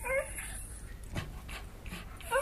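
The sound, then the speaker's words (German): Quiet panting of a yellow stray dog, soft breathy puffs in a loose rhythm, with brief high whimpering tones at the start and end. “Schlag ihn doch tot, diesen elenden Köter!”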